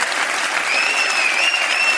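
Audience applause at a stand-up comedy show: dense, steady clapping that holds at an even level for the whole two seconds, with a thin high tone running faintly above it.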